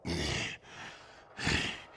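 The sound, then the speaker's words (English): Heavy huffing and puffing from exhausted, out-of-breath fighters resting amid a field of destroyed capital ships. Two loud, airy breaths stand out, with softer breathing between and after them. “They're all kind of sitting there. They're out of breath, huffing and puffing.”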